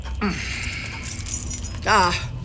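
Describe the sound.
Keys jingle briefly as a room door key is handed over, a light metallic rattle mixed in with voices talking.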